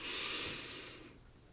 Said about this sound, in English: Close your eyes. Take a deep breath in.